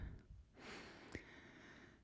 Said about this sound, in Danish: jeg trækker lige vejret.